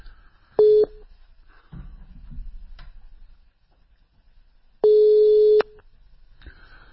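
Telephone line tones as a phone call is placed: two steady mid-pitched beeps, a short one and then a longer one, separated by several seconds of faint line noise.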